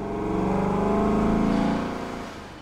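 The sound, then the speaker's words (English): Steady engine drone of a tiny armored truck flying, a smooth, continuous motor hum that swells slightly toward the middle and then eases off near the end. “teacher, Miss Grizzle, is flying us around in her tiny enchanted armored truck.”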